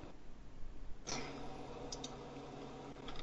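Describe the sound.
Faint computer keyboard typing, a few soft keystroke clicks over a steady hiss of background noise.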